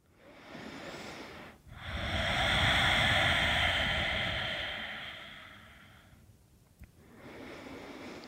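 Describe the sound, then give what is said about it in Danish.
Deep, slow breathing during a yoga session: a long, breathy exhale swells and fades over several seconds, with shorter soft breaths before and after it. “Find ah, nogle gode, dybe indåndinger og udåndinger.”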